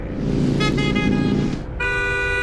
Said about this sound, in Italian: Ma devi proprio strombazzare come un cretino ogni volta che ti sorpassa?